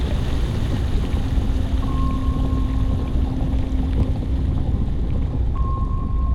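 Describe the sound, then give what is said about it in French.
Steady, loud rumble of a submarine diving down into the ocean: a constant wash of deep water and machinery noise, with a few thin sustained tones drifting over it. “Le sous-marin s'enfonce dans l'océan.”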